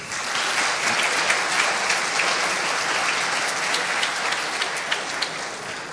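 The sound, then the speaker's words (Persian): Audience applause from a young crowd at a startup entrepreneurs' Yalda night event, with the listeners clapping in their own honor. Dense, even clapping keeps a steady loudness for about six seconds. “به افتخار خودتون یه دست بزنید”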